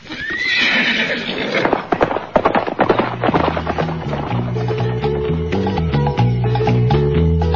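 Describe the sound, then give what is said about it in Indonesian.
A horse whinnies at the start, and then hooves clip-clop in quick, uneven beats. Musical tones rise underneath and carry on after the hoofbeats thin out. “Kalau begitu, mari naik ke atas kuda.”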